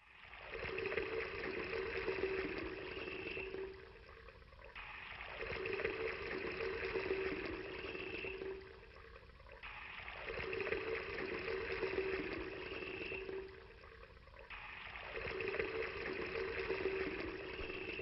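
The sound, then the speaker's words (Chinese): Water poured from four large buckets onto meat and firewood laid on an altar, a steady rushing splash in four long pours separated by brief lulls. “看，木柴放好了，肉块在坛上了。现在浇4大桶水在肉和柴上。”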